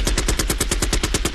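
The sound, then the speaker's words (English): Gunshots ring out as a rapid, evenly spaced burst of machine-gun fire. There are many loud, sharp reports with no pause between them. “Shots fired. South African clients aren't brave enough. Boom.”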